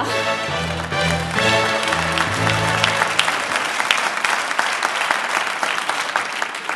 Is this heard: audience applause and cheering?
yes